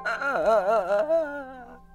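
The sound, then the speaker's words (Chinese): A person crying sadly, a sustained wavering wail with a shaking, sobbing pitch that holds for about two seconds before fading, heard alone. “你听，有人在哭哎，而且哭得很伤心。”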